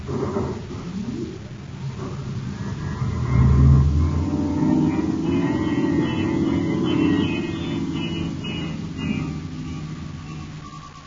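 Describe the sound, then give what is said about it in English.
Humming engine rumble of a spaceship's star drive engaging for a hyperspace jump, a sci-fi sound effect. The rumble swells to its loudest partway through, then settles into a sustained, wavering drone with a thin higher whine on top. “I'm cutting into star drive.”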